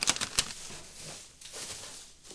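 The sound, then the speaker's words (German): Fresh bedding litter being spread in a small animal cage: a few crisp clicking patters at the start, then soft, steady rustling and shuffling of the loose litter. “Dann verteile ich noch neue Einstreu im Käfig.”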